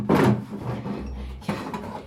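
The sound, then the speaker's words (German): A wooden drawer being opened to take out a pistol: a scraping slide near the start, a dull low rumble, then a second shorter scrape. No voices are heard. “Die Frau schubste mich in die Garderobe hinein, wo sie aus einer Schublade eine Pistole holte.”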